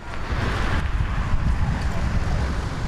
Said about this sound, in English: This is the sound of trucks and motorcycles in Jamestown, Ghana's capital Accra